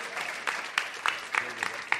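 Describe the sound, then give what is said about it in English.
An audience applauds, and its steady clapping swells in regular pulses over a dense wash of hand claps. “Hey, can you give applaud? Can you applaud? Would you applaud for yourselves?”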